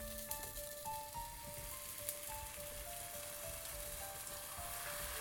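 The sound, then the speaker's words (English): Thick white batter sizzles on a cast iron pan, giving a faint, steady crackling hiss that runs without a break and has no talk over it. “I had thick white batter sizzling on a cast iron pan”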